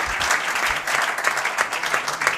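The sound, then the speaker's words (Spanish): Applause fills the whole clip during a football club interview: dense, steady clapping at an even level with no pauses and no voices heard. “Aplaude.”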